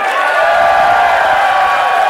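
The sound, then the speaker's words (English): Audience applause and cheering at a live show in Seattle, a loud, continuous wash of clapping and crowd noise that holds steady throughout. “I'll use that fucking applause while it's here.”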